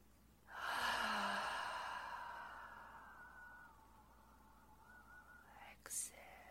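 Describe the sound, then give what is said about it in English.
A deep inhalation through the nose during breathing meditation: one long, breathy intake that starts loud and fades gradually over several seconds, then ends with a brief soft burst. “Inhale all the way, full stomach, full lungs,”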